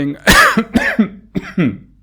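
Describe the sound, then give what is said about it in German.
A person still recovering from Covid coughs and clears their throat in a rough, husky way. Several short bursts come in quick succession, fairly loud, with no talk. “ich huste noch, also nicht wundern, wenn ich ab und zu huste”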